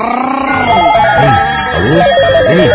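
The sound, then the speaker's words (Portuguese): An electronic telephone ring sounds while a call is placed to a listener: a loud, warbling, trilling tone that repeats in quick pulses, heard alone. “vamos, vamos ligar pra um ouvinte nosso aí?”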